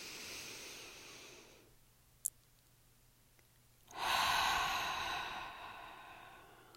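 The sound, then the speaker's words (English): Deep breathing through the nose while lying flat on the back during a relaxation exercise: soft, airy rushes of breath with a long, fuller stretch of airflow at the end. No talking. “Once you are ready, you're going to begin to breathe in deeply through the nose.”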